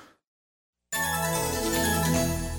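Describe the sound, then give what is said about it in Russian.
Telephone ringing for an incoming call on a radio call-in show: a steady electronic ringtone with bright pulsing tones, starting suddenly after a moment of silence and holding at a constant level. “Да, у нас звонок, я слушаю вас.”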